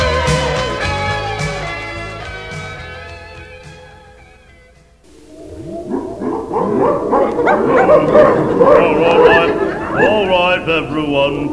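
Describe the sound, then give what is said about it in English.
An English bulldog barks and yips in many rapid, excited bursts that rise and fall in pitch. It starts after a passage of music fades out and carries on loudly to the end. “That English bulldog.”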